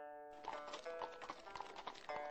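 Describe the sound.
Hooves of a horse-drawn carriage clip-clop in a steady, even rhythm, faint and regular, with a brief tonal sound at the start.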